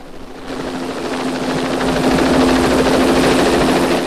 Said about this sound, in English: A police helicopter swoops through the bright blue sky over San Francisco.